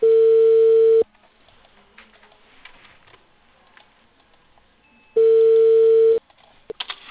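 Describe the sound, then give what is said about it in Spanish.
Ringback tones on an outgoing call to a cable company in Peru: two steady mid-pitched tones, each about one second long and separated by roughly four seconds of quiet line, followed by a few faint clicks. “le estoy llamando a la empresa Cable Perú”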